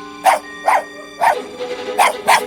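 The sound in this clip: A dog barks in five sharp, loud bursts at uneven intervals, with fainter yips between the later barks.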